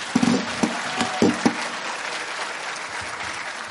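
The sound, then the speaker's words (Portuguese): An audience claps at a national spiritist convention in a dense, steady round of applause. A few sharper claps stand out early on, and the sound holds at an even level for nearly four seconds. “Palmas para eles, mais palmas.”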